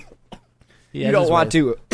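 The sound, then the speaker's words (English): Coughing after choking on smoke: a few short, sharp coughs, then a longer strained, throaty voiced stretch that fades and ends with one more brief burst. “You made me choke on that smoke.”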